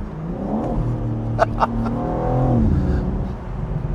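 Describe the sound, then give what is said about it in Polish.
Deep, bassy exhaust rumble from a convertible car on the move, a steady low drone that swells a little partway through, with a couple of brief clicks on top. “wydech nam w tym wszystkim trochę pomaga. On jest bardzo basowy, ale nie tyle, że jest jakiś tam nieprzyjemny”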